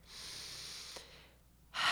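A deep breath drawn during a pause, a faint, airy hiss of breathing that dips briefly, then ends in a louder, sharper intake of air.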